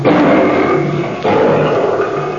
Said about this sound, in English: Good grief! Look, a lion!